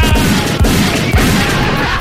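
Loud gunshot sound effects, a few sharp bangs fired in quick succession over a dense, continuous wash of noise.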